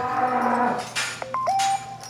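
A dairy cow in a barn with calving sensors gives a short, low, droning moo that fades within a second, followed by other brief barn noises.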